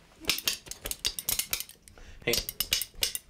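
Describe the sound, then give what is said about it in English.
Two metal spoons played together as a percussion instrument, many quick clacking metallic hits in an uneven, rattling rhythm with brief pauses between bursts. “You need two spoons. He only brought me in two. That's all right. You hold one. I'll hold the other one.”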